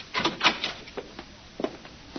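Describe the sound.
A hotel room door being unlocked: a few short metallic clicks and rattles from the lock, fairly faint, with small scraping sounds in between.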